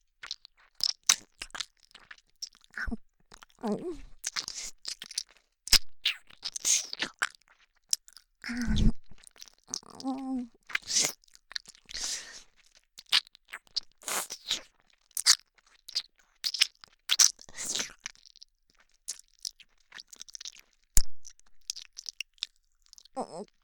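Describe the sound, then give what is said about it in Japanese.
Chewing of a sticky, gooey food: many short crunching and smacking bites come in irregular, fairly faint bursts separated by silent pauses. “ねっとりとしていて最低の噛み心地じゃん。”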